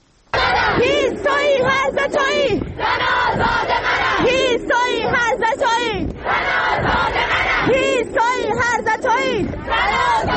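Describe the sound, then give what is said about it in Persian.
Protesters at Iranian university demonstrations chant and shout together as a large crowd, loud and continuous, with voices rising in rhythmic surges broken by brief dips. “نیز در صنعتی امیرکبیر تهران، هنر و معماری پارس، علوم بهزیستی، توانبخشی ولنجک، هنر تبریز و دانشگاه علم و فرهنگ تهران نیز تحصن و تظاهرات اعتراضی برگزار کردند.”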